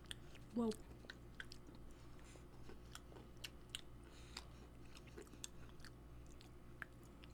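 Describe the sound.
Chewing on an oily lavender chocolate-covered pretzel: many faint, crisp crunches and small clicking bites, scattered irregularly through a quiet stretch.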